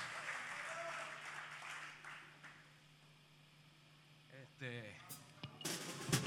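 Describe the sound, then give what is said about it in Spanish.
Audience applause at a blues festival, a broad wash of clapping that is strongest at the start and fades over the first few seconds before a voice speaks near the end. “Gracias, gracias. Aplaudan a este critter.”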